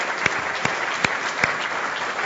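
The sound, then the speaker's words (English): Audience applause for people who played along on stage at a live book event. Dense, steady clapping runs throughout, with a few sharper single claps standing out, and no talk over it. “Give these guys a big hand clap for playing along.”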